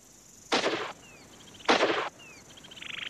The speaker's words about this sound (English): That's a long shot. I'm glad I put two shells in there.